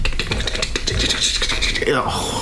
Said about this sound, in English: The Lego building noise, especially. They've used that one since day one.